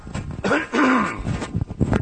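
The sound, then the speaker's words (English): Someone with a frog in the throat clears it in a few rough, gravelly bursts mixed with short voiced rasps. “Gosh, sorry about that. Got a little frog in the throat this morning for some reason.”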